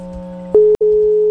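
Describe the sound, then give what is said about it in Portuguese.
A telephone ringing tone from an outgoing call: a steady, low electronic tone broken by one brief gap, loud and without voices. “Tá ligando pro Davi?”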